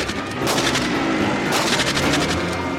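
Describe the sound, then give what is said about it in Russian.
Gunfire in a film shootout between soldiers and bandits at a guard post: dense, loud shots crackle one after another throughout, like rapid automatic fire. “Второй отступает внутрь дежурки и стреляет. Попадает в Чекана.”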